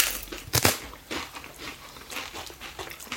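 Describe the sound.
A thin slice of dried octopus set in a credit-card-sized wafer is crunched, with one loud, crisp bite followed by many smaller dry crunches of chewing.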